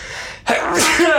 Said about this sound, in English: sorry. I sneeze on the question.